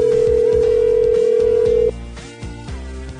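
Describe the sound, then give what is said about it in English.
Ringing tone on a phone call to someone who is shutting off the ringer: one steady, loud tone holds for about two seconds, then cuts off abruptly to quieter line noise. “there were less rings that time when I called, so that means he's hitting the button and shutting off the ringer.”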